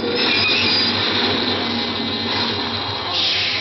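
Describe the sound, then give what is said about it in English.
A subway train's metal wheels squeal as it comes to a stop, with a loud, sustained high-pitched screech over a steady low rumble of the cars. “The subway stopped.”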